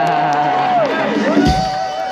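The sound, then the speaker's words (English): A concert audience cheers and shouts in a steady, loud roar, with a wavering whistle rising and falling above the crowd noise. “Now make some noise if this is your first concert.”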